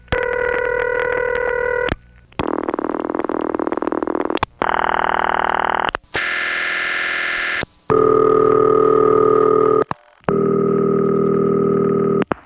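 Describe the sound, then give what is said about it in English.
Ringback tones from long-distance telephone calls, a sequence of six distinct buzzing ring signals, each differing in pitch and texture, harsh and somewhat distorted over the line, separated by brief gaps. “So let's listen to a few long-distance calls that do include a ringtone”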